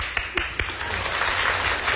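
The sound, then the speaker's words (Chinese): Audience applause at a live studio show, a dense steady patter of many hands clapping for two seconds, with a couple of sharper claps standing out near the start. “谢谢，再来点掌声。”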